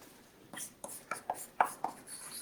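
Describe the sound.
Writing on a board during a lecture: a quick series of short, scratchy strokes with bright edges, some stronger than others, over faint background hiss.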